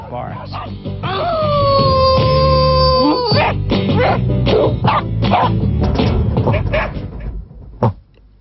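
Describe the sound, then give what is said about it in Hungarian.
A dog vocalizing loudly, opening with a drawn-out, sliding, whining howl, then breaking into a rapid string of short, sharp barks and yips, with a final isolated bark near the end. “Az ugatás rendkívül sokféle lehet egyetlen egyednél is, és nagyon sokféle, ha egyedeket hasonlítunk össze.”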